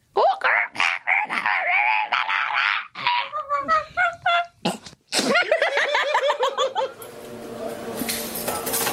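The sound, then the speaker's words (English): A human voice imitates the call of a blue-winged kookaburra, producing a loud run of harsh, cackling, honking squawks in quick bursts that build into continuous raucous chatter. “These ones got blue wings and the blues, oh, it's like a metallic blue and they sound like this.”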